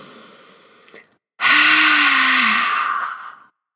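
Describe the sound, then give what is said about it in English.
A person does a breathing exercise with one forceful, breathy "ha" exhale that empties the lungs. The exhale is loud and lasts about two seconds, briefly voiced, and follows a quieter breath. “And it's a forceful exhale on a ha sound, exhaling all the air out of you. It would sound like this.”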